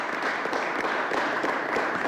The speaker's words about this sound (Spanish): Un aplauso para ese pueblo de Anzoátegui que está allá rojo, rojito.